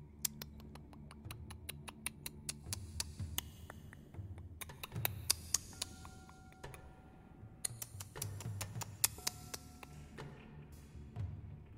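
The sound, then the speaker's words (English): Faint clicking comes from far down a passageway. Many small, sharp clicks arrive at irregular intervals, some in quick clusters and others spaced apart, over a low steady background. “some kind of clicking sound coming from far away down the passageway, and not at regular intervals”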